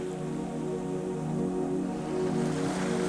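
Ocean waves on a lonely beach make a continuous, even wash of noise at moderate level, with no distinct individual breakers standing out.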